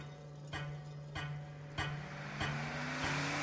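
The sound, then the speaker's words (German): A luxury car drives as its pedals are pressed, giving a steady low engine hum whose tone slowly rises as it accelerates. Regular soft ticks sound over the hum, all faint and without talk. “Stattdessen nehme ich meine Füße, lasse sie die Pedale meines Luxusautos niederdrücken, fahre sie zum Flughafen.”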